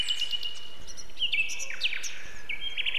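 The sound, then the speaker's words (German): A nightingale singing at dusk from bushes: high, clear whistled notes and short sharp chirps in irregular phrases over a faint, steady background hiss. “Ist das ein Vogel? Ja, das ist die Nachtigall. Sie ist auch am Tag zu hören, aber vor allem jetzt in der Dämmerung und noch bis spät in die Nacht hinein.”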